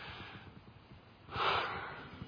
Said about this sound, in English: Take a deep breath right now with me.